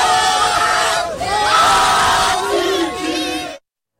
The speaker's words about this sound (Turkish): Öte yandan bazı Türk taraftarlar maç sonunda galibiyeti kutladı.